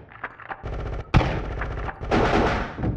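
Gunfire sounds in rapid, rattling bursts of automatic shots. A sharp, loud report lands near the middle, and the rapid firing continues around it at a steady high loudness.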